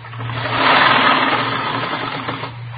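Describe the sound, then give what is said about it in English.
A sewing machine stitches rows of ruffles with a continuous mid-pitched mechanical whirr that swells early, then holds steady and eases slightly toward the end, with no talk. “Well, I've got this sewing to do. You can see that, can't you? Three more rows of ruffles go on. Right here.”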